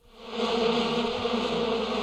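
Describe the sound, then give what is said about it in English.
Bees buzzing in a steady, continuous drone that swells in at the start and holds at an even level. “Oh, who opened the window? There's something special going on with bees today, is that right?”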